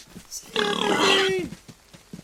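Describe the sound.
A pig in a video game lets out one loud, drawn-out squealing grunt lasting about a second, with quieter scattered sounds before and after.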